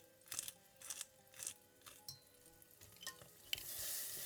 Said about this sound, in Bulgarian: Малък съд на котлона запържвам сладък червен пипер и лютив червен пипер с мазнина.